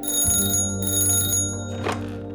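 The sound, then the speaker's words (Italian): A telephone rings in a designer's studio, a bright, steady bell-like tone sustained without a break through the whole clip. “Lo stilista è assorto tra i suoi pensieri quando improvvisamente squilla il telefono.”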